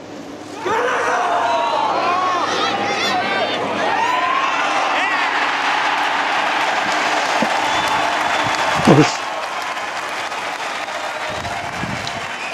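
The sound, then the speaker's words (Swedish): A golf crowd applauds and cheers Henrik Stenson's final putt to win the 2016 British Open, a sustained wash of clapping and whoops with a commentator talking over it. “2016 så kommenterade du British Open när Stenson vinner. Vi kan klippa in ljudet från när Stenson sätter den sista putten.”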